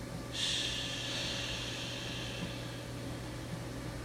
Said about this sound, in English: all together, let's expel the breath with the sound of an SH.